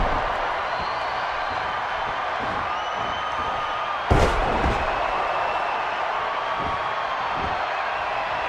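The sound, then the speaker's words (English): A power slam in a pro wrestling match drops a wrestler onto the ring with one heavy, booming thud about halfway through, over a steady wash of crowd noise. “DiBiase sends Stone Cold off and hits him with another power slam.”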